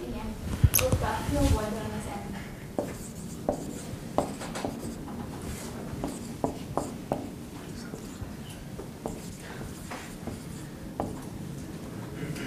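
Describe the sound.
Writing on a cleared space: faint, scratchy strokes and short rubs. A person talks over much of it.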